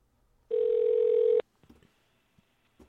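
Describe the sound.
A telephone tone sounds while a 913 number is being called: one steady, even-pitched tone lasting about a second, followed by a few faint clicks.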